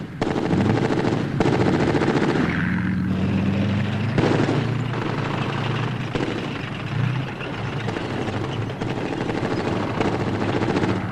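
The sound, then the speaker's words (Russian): Machine-gun fire in battle, loud and nearly continuous, with rapid bursts and heavy booming impacts layered over a dense roar. “Пулемет! Перебило, слышишь?”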